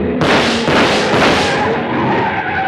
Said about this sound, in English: They're shots. Johnny, somebody was trying to kill you.